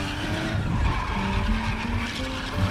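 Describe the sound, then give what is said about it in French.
Wheels of a Ford V8 car spin and skid in mud, giving a continuous grinding whine of slipping tyres and straining engine at a steady, moderate level. “Il tente de dégager la V8, mais les roues patinent.”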